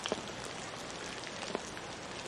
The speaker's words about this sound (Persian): بارون گرفت. آره داره بارون میاد.